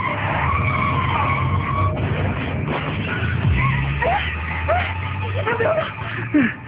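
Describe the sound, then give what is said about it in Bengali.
A car skids on a tree-lined road after a tyre puncture: continuous rough tyre and road noise with several short squeals rising through it, loud throughout. “মনে হয় tyre puncture হয়েছে। দাঁড়াও, গাড়ি break করো।”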